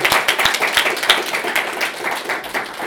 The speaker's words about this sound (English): You guys want a round of applause for yourself?